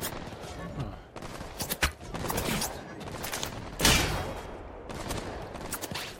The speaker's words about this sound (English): Wait, they're just shooting at each other?